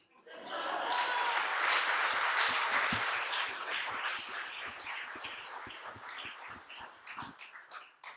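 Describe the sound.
Audience applause welcomes a speaker at a live storytelling event: a full burst of dense clapping that gradually thins into scattered individual claps as it fades.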